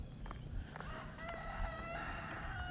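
A rooster crows faintly on a Sunday morning walk outdoors, its drawn-out harmonic call sitting low beneath steady background noise, with no talk.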